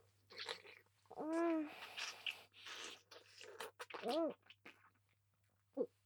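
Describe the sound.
Ramen noodles being eaten: soft wet bites and chewing with a few crunchy clicks, broken up by voiced hums and moans over a low steady hum.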